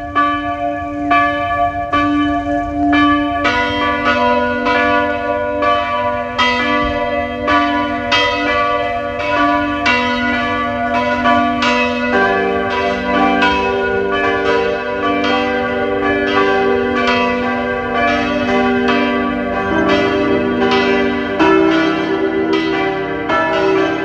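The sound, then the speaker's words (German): The noon bells of the parish church of Hollenstein an der Ybbs in Lower Austria ring loud and sustained. Several bells strike in overlapping, steady strokes, and the peal grows fuller partway through. “Es ist 12 Uhr. Sie hören die Glocken der Pfarrkirche Hollenstein an der Ips, Niederösterreich.”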